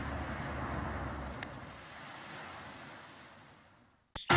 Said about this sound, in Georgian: ამ ადგილას ძლიერი მოქცევა და მიქცევა. შეიძლება წყალში გაიღვიძოთ.